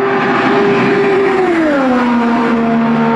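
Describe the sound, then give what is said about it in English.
An IR-28 IndyCar race car testing laps at Indianapolis Motor Speedway, its engine a loud, sustained high whine that drops in pitch midway and then holds steady, with no voices. “Testing happening at the world's greatest race course for the IR28.”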